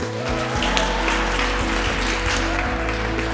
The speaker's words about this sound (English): That is the sound of Michigan's electors erupting in cheers after casting all 16 of their electoral college votes for President-elect Joe Biden yesterday.